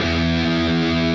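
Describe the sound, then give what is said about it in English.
A single sustained low E note rings on an electric guitar in standard E tuning, played through a distorted amp effect in Logic. It holds steady and loud for the whole clip, with no talk over it. “the lowest note on the guitar, and I'll just play this on my guitar, the lowest note on a guitar is this.”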